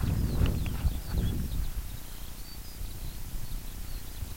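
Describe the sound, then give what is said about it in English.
Faint, high twittering song of skylarks over a cold, wet bog, thin chirps running throughout beneath louder low thudding and rumbling noise. “Hear the skylarks, but can't quite see one for you. Oh, right up there.”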